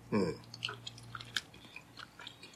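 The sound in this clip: Chewing of a soft, chewy bun with green tea kneaded into both the dough and its cream filling: faint, moist mouth sounds repeating irregularly, after a brief vocal sound at the start.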